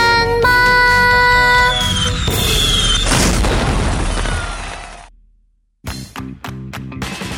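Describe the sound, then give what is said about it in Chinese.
Fireworks bursting in a night sky: a dense run of booms and crackling blasts over sustained tones, then a short silence before a few sharp thuds return. “黑夜中放烟火，砰砰砰砰砰”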